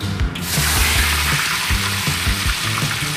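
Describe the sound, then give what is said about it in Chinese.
Mandarin fish goes into hot oil for pan-frying, giving a loud, steady sizzle that fills the whole clip, broken by intermittent low clattering knocks. “好了，我们先放入大鱼啊，桂鱼，”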